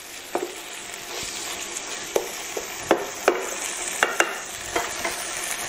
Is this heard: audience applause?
no